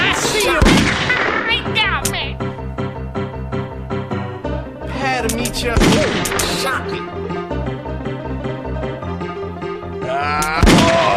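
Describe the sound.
Gunshots set within a song: three sharp, loud blasts spaced about five seconds apart, each cutting through a steady musical backing that continues between them.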